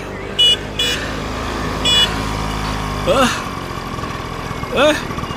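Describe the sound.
A truck engine idles in a steady low rumble as it pulls up beside a cyclist on a Tour de France mountain stage climb. A few brief high-pitched squeaks sound over it.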